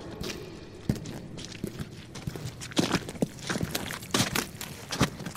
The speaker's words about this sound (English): Watch thy step as thou walk through the dark cave through the light.